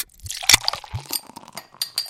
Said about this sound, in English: It's time to crack open a cold one with the boys. Here's a wild card for you. It is actually a beer, but it's made from bread. This is a loafer pale ale